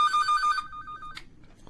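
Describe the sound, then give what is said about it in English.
Telephone ringing with an electronic ringtone: a rapidly pulsed high tone, then a sustained tone that ends in a short bright burst, fairly faint and alone. “Is that your phone? It is? No, I turned mine off. Is that your phone? I don't know what the hell it is. Oh, it's this phone.”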